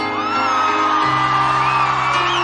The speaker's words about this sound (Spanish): ¡A ver los gritos, che!